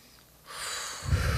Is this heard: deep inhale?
yes